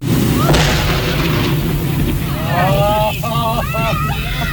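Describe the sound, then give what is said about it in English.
A deep boom from about half a ton of dynamite, some 20 cases, blowing up a dead whale on a beach. One heavy blast rolls on as a rumble, then voices rise over it. “So dynamite it was, some 20 cases or a half ton of it.”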